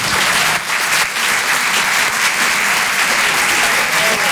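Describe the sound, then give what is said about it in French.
Loud, dense applause from a comedy club audience welcoming a performer to the stage, continuous for the whole stretch with only a slight dip near the start. “Faites du bruit, s'il vous plaît, pour Sophia Bellaves.”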